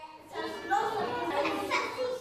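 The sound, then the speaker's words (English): Toddlers play in a cheerful kindergarten at a centre for children from deprived and troubled families, their high-pitched chatter and calls running continuously through the whole clip. “Toddlers play in the cheerful kindergarten of Kivotos, a centre for children from deprived and troubled families.”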